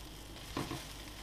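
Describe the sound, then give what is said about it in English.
Burger buns toast in a hot frying pan with a steady sizzling hiss and one brief louder crackle partway through. “Now I have been heating up the frying pan. I wonder if it's hot enough. Oh! Yes, it is. So I'll just quickly give these buns a bit of a toast.”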